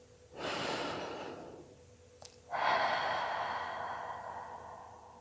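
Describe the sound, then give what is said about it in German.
A deep, full breath in and then out: a long airy inhale, a brief pause with a tiny click, then a longer, slightly louder exhale that slowly fades. No voices. “Und atme jetzt nochmal tief und vollständig ein und aus.”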